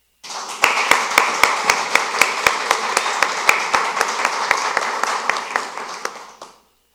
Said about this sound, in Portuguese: Novamente, pediremos uma salva de palma aclamada a todas homenageadas.